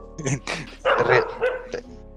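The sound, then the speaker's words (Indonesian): A dog barks in a residential neighbourhood, giving a few sharp, uneven barks in quick succession with brief gaps between them. “Oh itu anjing di komplek lu”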